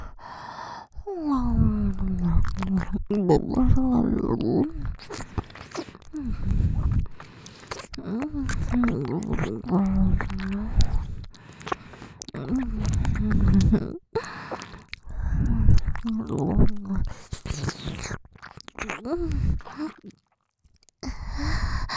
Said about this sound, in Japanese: ご褒美耳なめしてあげろ。